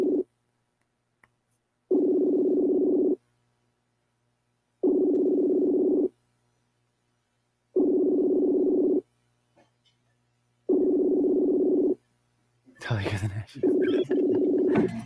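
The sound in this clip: Ringback tone of an unanswered phone call: a steady low buzzing tone repeating in about six long pulses with silent gaps, the last pulse overlapped by a voice briefly speaking.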